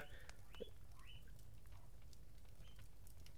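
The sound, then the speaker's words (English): Guinea pig squeaking: a few faint, high-pitched chirping squeaks spaced apart over a steady background hiss. “the guinea pig agrees. He's obviously a fan of Home Alone too.”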